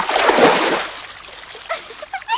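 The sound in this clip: Loud splash of someone jumping into a pool, a broad surge of churning water that fades over about a second, followed by a voice speaking.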